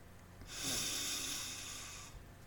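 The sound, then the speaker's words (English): One slow, deep breath is drawn in through the nose during a relaxation exercise. It is a soft, airy hiss that lasts about a second and a half, with nothing else around it. “Take a deep breath through your nose.”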